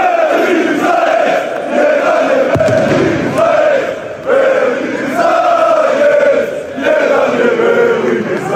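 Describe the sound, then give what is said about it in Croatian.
Loud crowd of Dinamo football fans singing and chanting in celebration after their favoured candidate wins the club presidential election, a dense, continuous mass of voices with a few brief dips in level. “Nastao je delirij. Brojni navijači modrih zapalili su baklje, podigli ruke u znak pobjede i novog predsjednika, svog miljenika, pozdravili pjesmom.”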